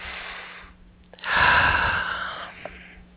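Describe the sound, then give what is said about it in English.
A deep breath taken during a guided breathing exercise, heard as one long, soft rush of air that swells and then slowly fades. “one more nice deep breath, please.”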